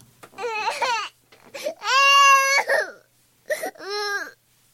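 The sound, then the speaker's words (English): Uncontrollable sobbing: a few loud, drawn-out, wailing cries with strong tonal quality, separated by short breathy gaps and catches, with no speech. “uncontrollable sobbing because that's how much we were holding it together for eight years. Uncontrollable sobbing.”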